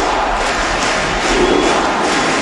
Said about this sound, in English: Barack Obama went to visit Cuba and Raul Castro to the cheers of the crowd there at the baseball stadium?